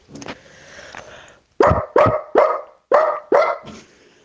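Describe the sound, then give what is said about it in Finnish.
A person imitates a dog barking: a drawn-out, whining growl-like sound, then five sharp, loud barks in quick succession with short gaps between them. “mulla olisi ääninäyte koirasta.”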